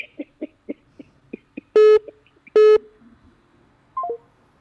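A telephone line rings while calling someone. A quick series of short, soft clicks and tones leads into two loud, buzzy ring bursts. A brief descending run of beeps follows after a pause.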